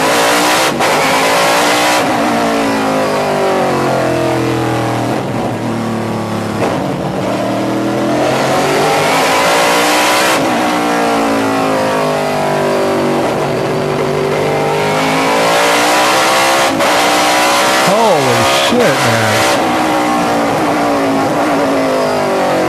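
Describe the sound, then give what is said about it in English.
A car engine on a racetrack revs hard and without a break while cornering, its loud whine repeatedly dropping as it slows for turns and climbing again as it accelerates out. “I love that you're decelerating to 62 miles an hour to make a turn.”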